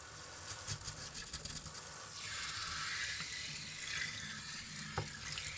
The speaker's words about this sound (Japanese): では、トリートメントを流しします。髪の毛にしっかりとトリートメントがついているので、念入りに流していきます。